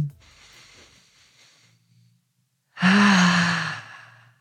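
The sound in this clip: A deep breath: a faint drawn-in breath, a short pause, then a loud, voiced, sighing exhale that swells and fades over more than a second, alone without speech.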